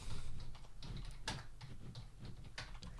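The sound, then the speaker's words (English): Typing on a computer keyboard while entering a search term into a website: many quiet, irregular keystroke clicks with no talk over them. “And then you just type It Takes Two.”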